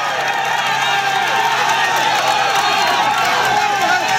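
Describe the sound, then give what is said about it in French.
Roadside crowd of fans cheering and applauding cyclist Richard Carapaz on a climb, a dense, loud, unbroken roar of voices and clapping throughout. “Richard Carapaz est dans un couloir de public, un couloir de fans, un couloir d'applaudissements, de bravo pour l'emmener,”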